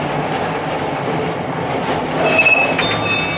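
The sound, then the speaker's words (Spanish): A tram comes to a stop in a snowy Moscow street with a steady, heavy rumble of rail noise. Thin, high wheel squeals cut in briefly near the end. “El tranvía se detiene y la joven desciende.”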